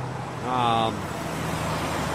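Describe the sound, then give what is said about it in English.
A car drives along the Harland Highway, a steady rumbling road noise with a low hum that continues without a break. “So I guess I'll just keep riding down the Harland Highway”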